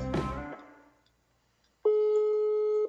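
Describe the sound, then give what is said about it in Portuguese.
A brief fading harmonic sound gives way to a steady, single-pitch ringback tone of an outgoing call placed from a mobile phone. The tone holds evenly for about a second. “Está chamando.”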